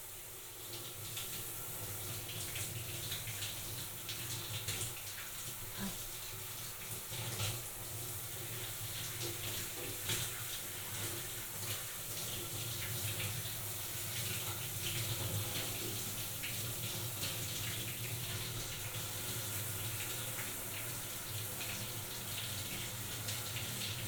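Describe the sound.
Water runs steadily from a tap to rinse during washing, a constant, fairly quiet hiss and splash without pauses or talk.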